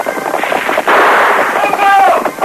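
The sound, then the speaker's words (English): Rifle and Colt revolver gunshots in a Western radio drama: sharp, loud bursts of gunfire that crackle across a dense, continuous stretch of noise. “Red Wolf whirled, leveled his single-shot rifle over his pony's neck and fired. The bullet clipped hair from Silver's flying mane. An answering shot from the masked man's Colts broke the chief's gun stock.”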